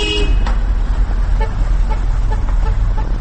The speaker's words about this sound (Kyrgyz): Оштогу күнүмдүк көрүнүшкө айланып калган унаатыгыны бүгүн ого бетер күчөдө. Ал тургай жолго батпаган машинелер, жөө жүргүнчүлөр басчу тротуарларга да чыгып кеткен.